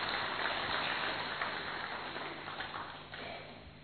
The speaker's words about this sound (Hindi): हम करतल ध्वनि के साथ उनका स्वागत करेंगे।